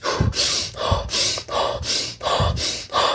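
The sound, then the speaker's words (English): Deep hyperventilation breathing from a breath-hold exercise, a loud, rapid, even rhythm of forceful breaths in and out, each one a rushing, airy gasp with no talking. “this type of breathing, you do 25 to 30 deep breath, then you breathe out fully, you hold as long as you can, breathe in, and hold as long as you can”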